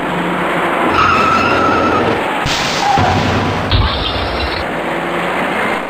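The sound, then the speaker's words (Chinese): Loud tire skidding and a dull impact as several cars rear-end one another on the Fourth Ring Road near Zhongguancun, heard over a dense roar of traffic that cuts off abruptly twice. “从后方开上来的几辆车却因为采取措施不及，接二连三地追撞在一起”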